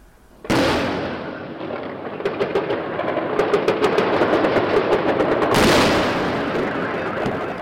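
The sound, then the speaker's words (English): Air defence guns fire to shoot down cruise missiles over the port city of Odessa. A loud blast is followed by a dense run of rapid cracking shots, then another heavy blast near the end, with a loud sustained roar throughout. “take a look at this dramatic video of Ukrainian air defences shooting down Russian cruise missiles.”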